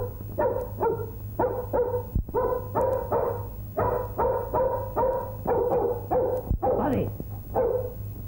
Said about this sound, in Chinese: Buddy，Buddy，我吧，你吠咩你？又吠啦？